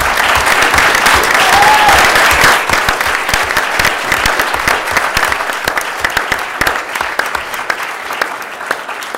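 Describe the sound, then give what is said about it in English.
Audience applause at a school board meeting: dense, steady clapping that continues at full strength for several seconds, then gradually thins into scattered individual claps toward the end, with no talking over it. “please join me in a round of applause”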